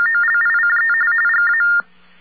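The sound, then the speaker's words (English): Telephone ring tone after dialing 311: a loud, rapidly warbling high electronic trill repeating steadily, then cutting off abruptly, leaving only a faint hiss. “Now, that is something that you get now if you dial 311 from many, many places.”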